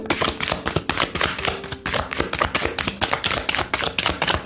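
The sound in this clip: A deck of tarot cards being shuffled produces dense, fast papery flapping and riffling that runs continuously and fairly loud, with no voices.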